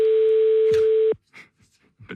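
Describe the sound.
A telephone line tone plays while calling a landline: a steady, loud electronic tone holds for about a second, then cuts off abruptly, followed by a few faint clicks and rustles.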